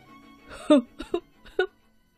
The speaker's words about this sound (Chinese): 霸王龙紧紧的抱着他，哭了起来。